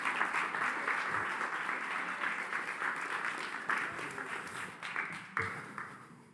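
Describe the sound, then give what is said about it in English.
Audience applause fills a church as a woman comes up onto the stage: steady, continuous clapping from many hands, holding loud throughout with a brief swell near the end. “And I want you to give her a hand as she comes up.”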